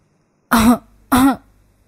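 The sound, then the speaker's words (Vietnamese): An old man coughs lightly twice: two short, soft, voiced rasps about half a second apart, each clipped and evenly matched, with quiet before and after. “ho nhẹ”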